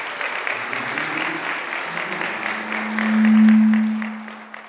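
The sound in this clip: Applause from a church audience welcoming a speaker up to teach: steady, moderate clapping throughout, with a sustained low tone swelling beneath it toward the end.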